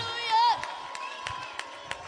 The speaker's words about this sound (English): That's not just a shout. That's not just a shout of a hype. That's not just a shout of emotion.